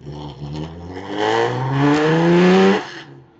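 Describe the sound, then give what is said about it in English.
Loud engine drone of the recently recommissioned Transit Supervan 3. Its strong, buzzing tone climbs steadily in pitch as it revs, then cuts off abruptly near the end. “We just finished recommissioning a number of our vehicles, including that very loud one, which is Transit Supervan 3.”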